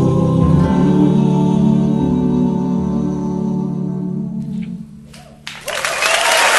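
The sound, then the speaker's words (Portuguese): Applause breaks out as sustained music fades away, swelling into loud, dense clapping over the last second or so. “Agora, pode deixar aplaudir que vale.”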